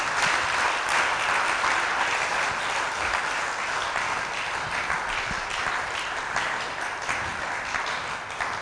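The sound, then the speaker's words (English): Audience applause, a dense, continuous roar of many hands clapping that holds steady for several seconds and eases off slightly toward the end, with no talking over it. “Come on, put your hands together.”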